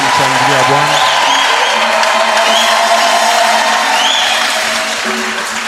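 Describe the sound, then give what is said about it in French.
An audience at a church service cheers and applauds in a loud, unbroken wash of shouting and clapping, with voices and tones woven through it. “Est-ce qu'on peut acclamer le Seigneur Jésus-Christ?”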